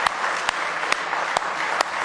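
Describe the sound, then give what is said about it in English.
Church audience applauding in praise during a Sunday morning service: dense, steady clapping with a few sharper claps standing out at fairly regular points. “Give Him a real good hand clap of praise if you love Him this morning.”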